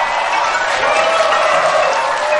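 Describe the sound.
Dense, even clapping from a large studio audience at a Korean talk show, a continuous wash of hands with no pause.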